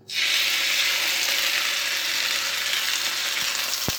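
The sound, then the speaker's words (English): A salted and peppered pork loin steak sizzles in a little oil in a very hot cast iron pan. A loud, steady, bright hiss runs throughout, with a brief knock near the end. “pork loin steak, and I'm going to salt and pepper both sides. And I'm going to cook it on a very hot cast iron pan with a little bit of oil.”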